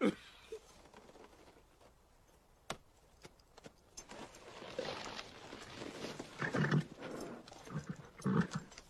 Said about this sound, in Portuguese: O cavalo. O cavalo.